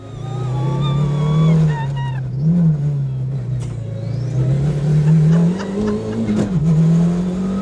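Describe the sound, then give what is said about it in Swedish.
A rally car engine roars at a forest rally event at an arena in Tierp, a loud, sustained drone whose pitch wavers up and down as it revs and accelerates. “Det där är vad vi kallar en kul dag på jobbet. Man får passa på när tillfälle ges och åka rallybil med gamle världsmästaren Stig Blomqvist”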